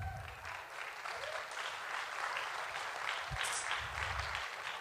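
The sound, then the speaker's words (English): An audience claps in a dense, continuous wash of applause that holds at an even level throughout, with no voices standing out. “You are the clappiest people I know.”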